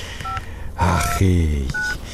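Telephone keypad dialing tones as a call is placed to a spouse: three short, clear dual-pitch beeps spaced apart, with a louder buzzing drone in between.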